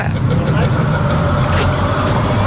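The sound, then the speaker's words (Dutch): A car drives past over a bridge that is still cranked open by an old-fashioned hoist, giving a steady low engine rumble and road noise that holds evenly throughout. “ook al weer een auto voorbij, zo gaat het maar.”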